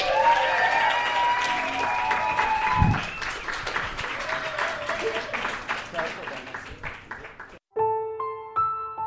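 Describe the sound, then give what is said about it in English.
Audience applause and clapping for performers at a live show start full and then gradually thin and fade over several seconds before cutting off abruptly. “please make some noise for Jordan and James of Boosie Fade.”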